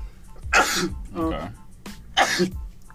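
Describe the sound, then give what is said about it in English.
Two explosive, breathy sneezes, loud and sudden, with a brief voiced sound between them. “Bless you.”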